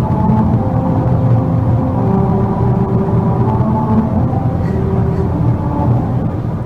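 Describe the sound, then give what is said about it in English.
Steady, loud road rumble inside a car driving over musical rumble strips in America, with droning tones that shift in pitch as the tires trace out a familiar tune. “And these rumble strips are playing America the Beautiful in the background.”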